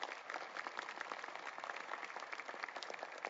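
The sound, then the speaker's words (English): An audience applauds Dr. Westmoreland with steady, even clapping throughout, many hands patting at a moderate, continuous level. “Let's show our appreciation to Dr. Westmoreland.”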